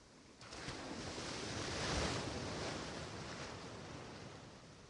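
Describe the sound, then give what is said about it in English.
Quiet, steady wash of sea waves in warm, calm water, a continuous rushing surf that swells to a peak midway and then eases back, with no voices. “You walk further into the bustling water.”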